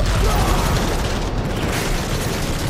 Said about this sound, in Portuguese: Um foguete atravessou o campo e explodiu entre dois militares.